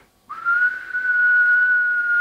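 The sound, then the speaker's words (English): A person whistles through pursed lips, holding one clear, steady mid-high note for about two seconds after a quick onset. There is no voice alongside it. “Now, in order to make that whistle, you have to kind of shape your mouth a certain way, and you have to direct air forward a very specific way.”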